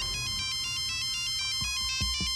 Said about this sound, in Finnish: Ja sit puhelin soi ekaa kertaa.